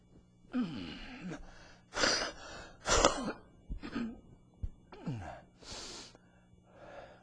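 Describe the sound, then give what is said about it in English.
Several harsh coughs, gasps and throat clearing from something stuck in the throat, irregular bursts separated by short pauses. “I hate it when it gets in your throat and gets stuck and you can't get it out.”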